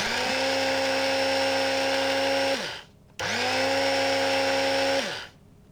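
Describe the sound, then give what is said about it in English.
A small electric coffee grinder grinds hand-roasted coffee in Ethiopia. Two bursts of high motor whine are separated by a short gap, and each spins up quickly, holds steady, then winds down. “But I use a little grinder for that, yeah.”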